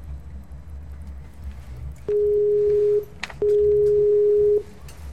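Ringing tone on a telephone line while a call is being placed: two long, steady electronic beeps at one even pitch, separated by a short pause, over a faint low hum.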